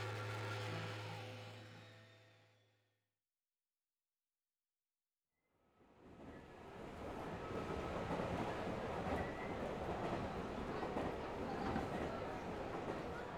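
A crowded commuter train running on rails: a rumbling clatter with a low hum fades to near silence, then swells back into a loud, continuous roar that holds to the end.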